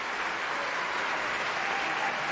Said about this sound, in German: Das ist der extra Applaus für Michael Laurenz.